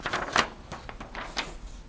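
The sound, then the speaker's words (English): Pen or pencil strokes on paper as something is written down: several short, dry, scratchy bursts in an uneven rhythm, fairly faint, with no voices. “Okay, now I have to write something.”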